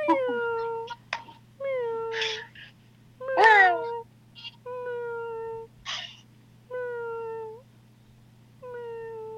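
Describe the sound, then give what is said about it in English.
A cat named Angus meows many times in a row. Each meow is a clear, falling-pitched cry, some short and some drawn out and louder, separated by brief pauses. “His ears just perked up. Angus, hold on. I know what to do. I know what cats like.”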